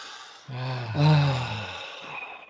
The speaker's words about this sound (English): So ready? Let's take a breath to clear our mind.